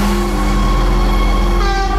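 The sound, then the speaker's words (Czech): Loud, steady rumble with a sustained tonal hum as a newly refurbished Stadler train unit with a mid-mounted motor pulls into a main railway station platform. The sound is continuous, with no voices. “Pátou kolej plzeňského hlavního nádraží právě teď přijíždí nově opravená souprava Stadler.”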